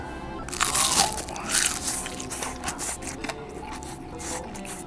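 Crunching as someone bites into crispy shrimp tempura with a crunchy batter coating: several quiet, irregular crackling crunches, loudest at the start, then softer chewing sounds.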